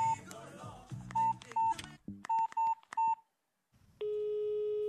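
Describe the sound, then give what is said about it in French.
A telephone number being dialed on a keypad: a quick series of short, evenly pitched electronic beeps, then a steady continuous tone after a brief silence. “Tu vas appeler ton frère. Donne-moi son numéro.”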